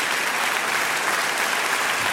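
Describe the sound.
Audience applause, a dense and even wash of many hands clapping at a steady loudness throughout, with no voices standing out.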